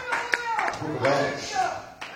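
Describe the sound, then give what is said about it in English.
A church audience claps in praise, the claps sparse and sharp, scattered under a loud, preaching voice that carries over them. “So at least you can stand up and give God a hand clap of praise.”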